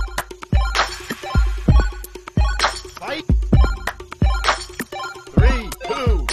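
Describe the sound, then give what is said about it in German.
A short musical jingle introducing a karaoke song segment, with punchy repeated beats and bright layered tones that rise and fall in quick phrases, played loud from start to finish. “Oh, wir haben unseren Trailer, unser Jingle.”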